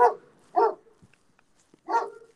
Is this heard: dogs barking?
yes